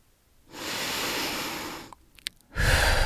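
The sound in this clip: A deep breath: a long, steady, airy inhale, then a short pause with a few small clicks, and a strong exhale beginning at the end.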